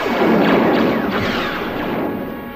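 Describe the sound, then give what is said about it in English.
Blaster laser fire in a shootout with troops at a spaceport while others board a ship: a loud, dense barrage of overlapping booming, crackling shots that carries on without pause. “Han Solo and Chewie exchange blasting laser fire with the troops as the others board the Falcon.”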